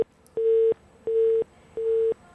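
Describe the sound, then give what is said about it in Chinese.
A telephone busy tone sounds after dialing an anti-corruption complaint hotline: three evenly spaced, steady mid-pitched beeps, each about a third of a second long, separated by equal silent gaps. “还有一个廉政举报的电话，这是盲音吧？”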